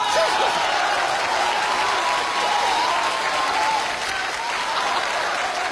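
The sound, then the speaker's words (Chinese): Dense, steady applause from a group of people at a comedy sketch, holding loud and even throughout with no pauses. “我都赶不上车了，这哥几个还鼓掌呢”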